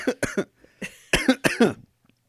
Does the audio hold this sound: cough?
yes